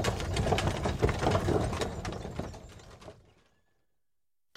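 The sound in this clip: Dense rattling and clattering of a horse-drawn wagon setting off, a busy continuous clatter that gradually dies away into silence after about three seconds.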